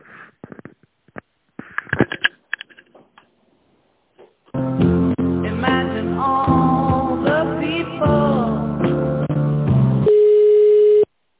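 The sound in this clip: Telephone line sounds during a business call transfer: a few scattered clicks, then several seconds of steady tonal, melodic sound, ending on a single sustained, even tone.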